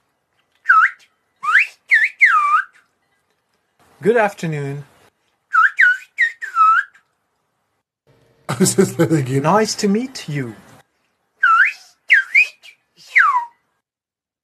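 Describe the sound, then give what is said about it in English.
Whistled speech played from a recording: many short whistled phrases with gliding, swooping pitch, arriving in quick bursts of three or four. Between the groups, a person speaks in a normal voice. “It's a more complex change in sound quality or timbre, which is easily conveyed in a whistle. So let me play a bit of example.”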